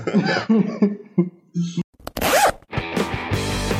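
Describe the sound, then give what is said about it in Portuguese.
A short intro jingle for a show: a quick collage of voice-like tones, a sudden noisy burst and a brief rising-then-falling pitched sweep, ending in a dense, busy flourish. “Quer saber? Só pra mostrar quem é que manda. Roda a vinheta de novo”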